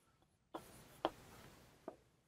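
Marker or chalk writing on a board during a lecture: three short, faint scratchy strokes, evenly spaced, with quiet gaps and no talking.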